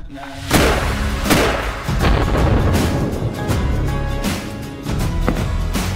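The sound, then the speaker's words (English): A rifle shot is fired at a white steel plate target on a shooting range, a sharp, heavy boom early on. A steady, rumbling noise continues afterward. “Nice shot. All right, that was shot number one. We'll adjust from here. So as you're shooting multiple shots through this rifle,”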